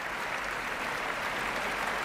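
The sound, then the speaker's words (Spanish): Dense, steady applause fills the hall as the standing audience gives the Orquesta Nacional de España an ovation after an orchestral concert, a continuous wash of many hands clapping at an even, loud level throughout. “Grandes aplausos, gran ovación para la Orquesta Nacional de España puesta en pie.”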